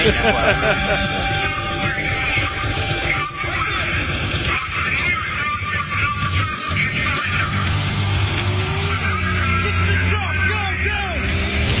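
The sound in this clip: A truck drives in the video game Battlefield, its engine rumble blended with dense, continuous game noise for the whole stretch, while a person talks over it.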